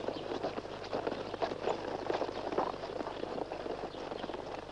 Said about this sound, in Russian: Они въезжают в деревню. Скачут по центральной улице.